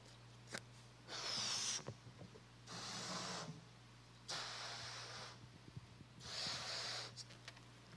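Balloon being inflated by mouth, heard as a series of long, breathy puffs of air with hissing rushes, about four main blows separated by short pauses, faint overall.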